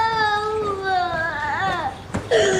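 A young child crying after being teased by other children, a long, high, wavering wail that bends up and down in pitch, broken by a short catch of breath before a fresh sob.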